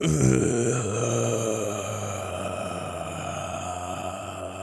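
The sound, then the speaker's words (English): A drawn-out vocal groan used as an intro, sustained for several seconds with a rich, low, voiced tone that holds steady in loudness after a slightly stronger start. “That was a good intro groan.”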